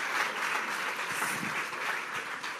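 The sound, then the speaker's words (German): An audience applauds during a church sermon, giving steady, moderately loud clapping from many hands with slight swells in intensity throughout. “Let's give Rob a hand. Ja, Applaus für Rob.”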